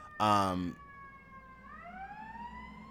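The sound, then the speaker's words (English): An emergency vehicle siren passes outside, a sustained tonal wail that climbs in pitch partway through. A brief burst of a person's voice comes at the start. “This damn siren is throwing me off. It's so fucking loud.”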